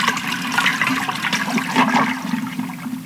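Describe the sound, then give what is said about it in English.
A toilet flushes with a loud, continuous rush and gurgle of swirling water that holds fairly steady throughout, with no voices. “A double flush.”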